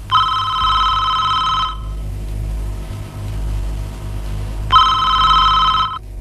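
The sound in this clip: A telephone rings with an incoming call in two bursts of high, warbling electronic ringing separated by a pause of about three seconds, over a steady low rumble.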